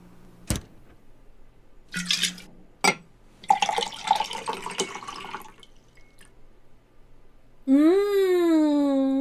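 Iced tea is poured from a carafe into a glass. A few sharp clinks and a rustling splash come first, then a loud, steady pour whose resonant tone climbs in pitch as the glass fills.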